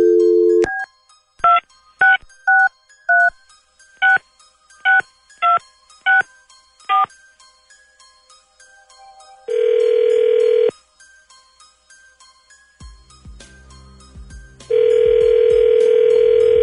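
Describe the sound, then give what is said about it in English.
Telephone number dialed at random: a string of crisp keypad beeps at an uneven pace, then two long, buzzing ringback tones separated by a quiet gap while the line rings. “let's call him, and then we'll see if he answers real quick. Dialing at random.”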